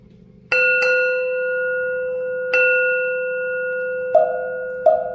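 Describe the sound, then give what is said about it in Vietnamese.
A bell struck a few times in a Buddhist meditation setting, each sharp metallic strike blooming into a long, sustained ringing tone that slowly decays, the later strikes sounding duller, over a faint low hum. “Chuông gõ bỏ thanh vang lời khai thị”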